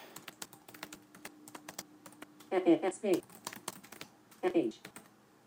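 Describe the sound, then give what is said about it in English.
Typing sentences on a computer keyboard, with many sharp, irregular key clicks throughout, broken by short bursts of speech in between. “So I'll do three finger single tap to switch to text mode. And let me type some sentences, each one on its own line.”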